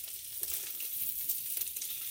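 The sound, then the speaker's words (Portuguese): Sizzling and stirring of a creamy scrambled-egg-like mixture in a hot pan, a steady crackly hiss with soft scraping strokes running through it. “como se fosse uma espécie de uns ovos mexidos, não é? Não, mesmo os ovos mexidos. Sim. Pronto. E aí, e tens que ir sempre mexendo muito bem para ficar mesmo muito, muito, muito cremoso. Sempre a mexer.”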